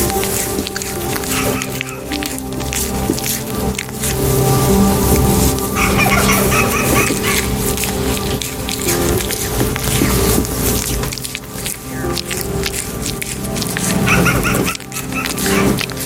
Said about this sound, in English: That was a gentle deer licking a man's hand.